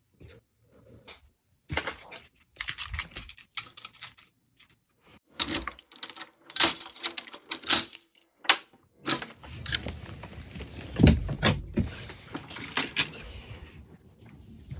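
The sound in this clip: Keys jangle and click at the door of room 508, with many irregular metallic rattles and taps. Lower thuds come in toward the end.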